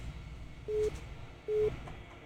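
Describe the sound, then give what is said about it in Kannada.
Telephone busy tone after a call is cut off: two short, steady mid-pitched beeps with a gap between them, faint over a low background hiss. “Hello, ಕರೆ ಕಟ್ಟಾಯಿತು.”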